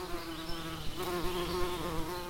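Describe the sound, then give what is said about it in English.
A swarm of bees buzzing: a dense, continuous drone with a steady low hum and many overlapping wingbeat tones, moderately loud and unbroken throughout. “Noah Baker has been investigating how a swarm of bees hold themselves together.”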